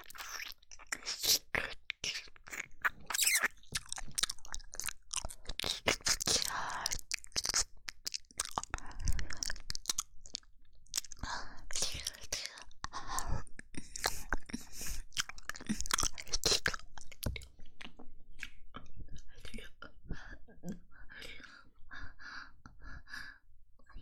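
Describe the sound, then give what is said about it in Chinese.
A person chews and eats food, with continuous crunchy bites and wet chewing in an irregular rhythm throughout, broken by occasional breaths and sighs and no speech. “人家现在正在吃得过瘾呢”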